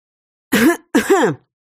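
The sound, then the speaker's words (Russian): A woman gives a loud cough: two short, harsh, throaty bursts in quick succession, alone against silence. “Громко кашлянула я”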